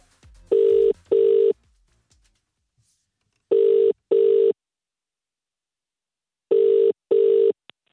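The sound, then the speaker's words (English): A telephone rings out in three evenly spaced double rings, each pair made of two short buzzy bursts, with pauses of about two seconds between pairs. “You're dialing, yeah? I'm putting it in now.”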